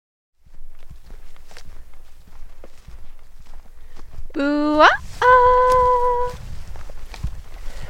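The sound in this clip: Footsteps walking down through sagebrush, a steady run of soft, scuffing steps lasting the whole clip, with a voice heard briefly.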